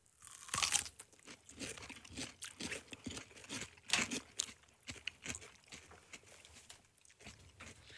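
Crunchy chewing of watermelon-flavoured food, eaten without its peel during a taste test, with many irregular crisp bites and crackles at a faint level.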